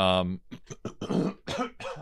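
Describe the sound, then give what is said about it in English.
Someone clears phlegm from the throat: a brief voiced grunt, then a few rough, gravelly bursts in quick succession, moderately loud. “I got some phlegm buildup.”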